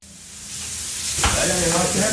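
Food sizzles on an electric restaurant grill as the day's lunch is prepared. A steady, hissing fry grows louder partway through and continues without pause.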